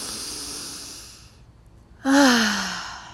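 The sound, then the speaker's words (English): A deep breath during a guided breathing exercise, taken while seated on a rock: a long soft inhale fades into a short pause, then a loud, sudden exhale breaks out as a voiced sigh that slides downward in pitch. “One more deep chest orgasmic breath.”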